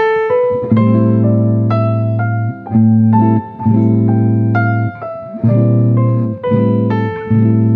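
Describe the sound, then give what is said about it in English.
A natural minor scale in A Aeolian, running from A to A, played note by note on an instrument. Clear, sustained tones follow one another at a steady pace over a held low chord. “We're starting on the 6th note of the C major scale and ending on the 6th note of the C major scale, which is A. So it sounds like this.”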